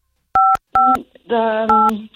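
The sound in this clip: Touch-tone keypad beeps as a phone number is dialed to call someone's boss: four short, steady dual-pitch tones in quick succession with brief gaps, loud and clear.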